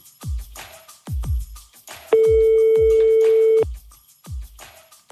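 A telephone rings once in a single long, steady electronic tone. A rhythmic low thumping beat pulses before, under and after the ring.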